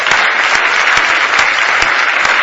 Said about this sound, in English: Why don't you just give the Lord a real good hand clap of praise tonight?